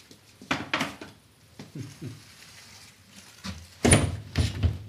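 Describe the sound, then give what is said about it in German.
A door is closed with a few wooden knocks and clatters, then one louder, heavy thud, followed by more soft handling noise. “hier musst du erstmal noch die Tür zumachen”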